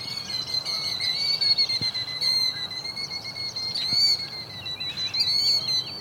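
A killdeer calls on a farm, repeating thin, high, shrill whistled notes in a steady run that continues throughout, fairly clear over a soft background hiss.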